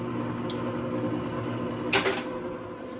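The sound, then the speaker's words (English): Electric mixer beating egg yolk, a steady whirring motor hum that runs the whole time, with a faint click early on and a brief louder clatter near the end. “Okay, next egg yolk goes into the mixer.”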